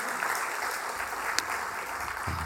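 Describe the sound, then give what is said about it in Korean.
A church audience applauding to encourage the choir after its hymn, the clapping a continuous, even wash of moderate loudness from start to finish. “우리 한번 격려의 박수로 한번 하시도록 하겠습니다.”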